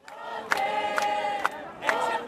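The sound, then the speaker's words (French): A crowd of students marching through the streets of Athens in a protest, their voices rising in regular chanting bursts about every half second over a steady crowd roar. “Ici, au cœur des cortèges étudiants qui battent le pavé athénien comme tous les jeudis depuis le début de l'année”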